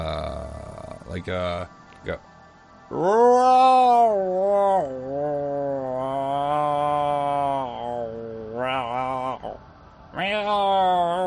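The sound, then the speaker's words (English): A person imitates a cat during a tabletop role-playing game, voicing long, wavering yowls and growly meows. The loud, strained cries bend up and down in pitch and are broken by short gaps and a few rough grunts. “that's a good cat noise.”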